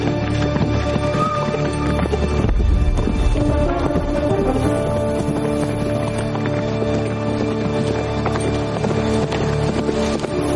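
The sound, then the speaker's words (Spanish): Horses gallop in a Western setting as riders pursue on horseback: a dense, continuous drumming of hoofbeats holds steady and loud throughout. “Por su parte, sus perseguidores avanzan al galope en su busca.”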